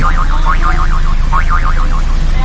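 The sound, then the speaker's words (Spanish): A well-preserved, all-original car's suspension creaks over potholes, a wavering spring-like squeak repeating in quick cycles above a loud, steady low road rumble. “Y los baches están muy bien la suspensión, ¿eh? ¡Ay! Suena bien, ¿eh? La suspensión. Suena como las camas de muelle.”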